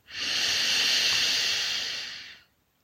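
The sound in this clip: A slow, deep breath in through the nose during a night-time meditation: one steady, airy hiss lasting about two seconds, holding even before fading away.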